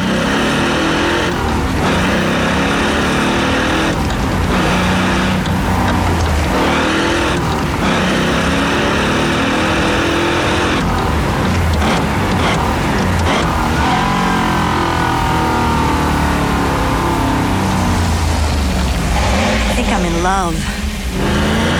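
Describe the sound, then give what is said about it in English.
Engine of a 285-horsepower Chevrolet Camaro Z28 revving and accelerating: a continuous loud roar with shifting pitch, with a voice talking over it. “The 285 horsepower Camaro Z28 by Chevrolet.”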